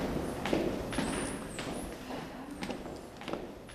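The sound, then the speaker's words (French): Footsteps go down the stairs of the women's prison in Rennes as a steady series of faint taps, spaced roughly evenly over nearly four seconds. “On descend les escaliers à la rencontre de Maude.”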